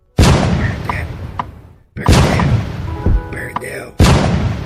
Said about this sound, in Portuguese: e uma rajada de tiro acertou sua cabeça